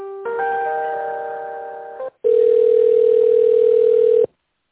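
Telephone line tones while a call is transferred and connected: a buzzy, harmonic-rich tone for about two seconds, a brief break, then a loud, steady, pure mid-pitched tone for about two seconds more.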